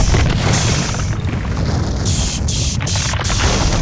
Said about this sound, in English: And you guys hear the sound of stone breaking as.